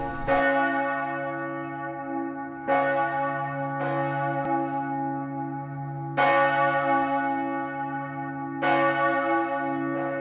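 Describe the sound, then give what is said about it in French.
The great bell of a castle keep tolls five times at uneven intervals. Each deep, resonant strike lingers in a long sustained hum that carries into the next, with no voices. “la sentinelle de l'ordre a très bien fait, elle a ébranlé la grande cloche du donjon pour réagir à cette attaque chinoise.”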